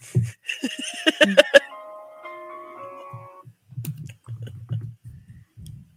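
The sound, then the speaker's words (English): Typing on a computer keyboard gives quiet, irregular clicks and taps in short bursts, with brief pauses between them. “I can't talk and type at the same time.”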